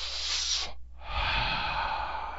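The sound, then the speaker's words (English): A person takes a deep cleansing breath: a breathy inhale, a brief silent pause, then a longer, airy exhale, fairly quiet and with no talking. “Let's take deep cleansing breaths.”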